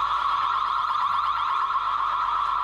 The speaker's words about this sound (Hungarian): sikerült bekapcsolni ezt a lézerriasztót, úgyhogy most el kell szabadni, hogy kikapcsoljuk. És ez a riasztó.